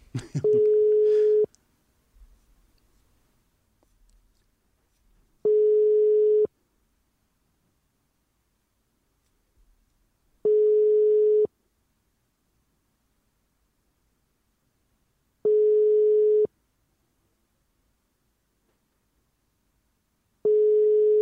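Telephone ringback tone while a call is dialed out: five one-second, steady mid-pitched beeps spaced evenly about five seconds apart, with a short burst of noise at the start and faint low sounds in the gaps.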